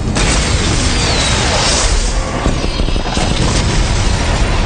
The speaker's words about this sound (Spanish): ¡Misiles interceptados!